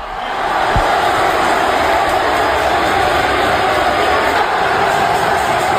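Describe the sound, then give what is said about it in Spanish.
A crowd roars inside the Roig Arena, a loud, steady wash of many voices that swells in over the first half second and then holds without pause. “Sonido del Roig Arena, así sonaba y así rugía el público.”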